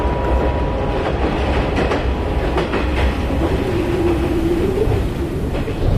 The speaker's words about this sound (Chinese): 列车一声长鸣向前奔去。